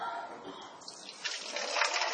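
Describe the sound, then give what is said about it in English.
Water being poured during a church talk about baptism, a steady liquid rush that grows louder and brighter toward the end. “Pouring, living water. Drinkable, loving water.”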